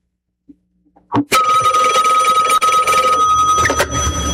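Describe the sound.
A telephone rings for an incoming call: a few soft clicks, then a loud, sustained bright ring that runs unbroken to the end, with no talk.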